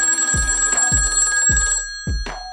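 A telephone rings with a bright bell tone in several short, evenly spaced bursts that repeat in a steady pattern, heard alone without voices.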